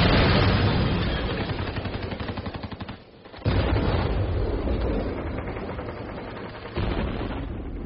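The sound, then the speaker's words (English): Gunfire from a video game suicide bombing crackles in loud, dense, rapid bursts. It drops briefly near the middle, then resumes just as heavily, with a further jolt toward the end. “He's wearing a suicide vest? And what is he entering? That's a civilian Israeli building. That's a school. Your Honor, this is a game.”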